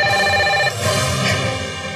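A telephone rings with an incoming call: a loud, continuous electronic ringtone of layered steady tones. It shifts slightly partway through and plays alone without voices.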